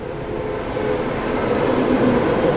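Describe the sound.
An ICE high-speed train passing by makes a steady, broad rushing rumble that swells slightly over the few seconds, with no voices.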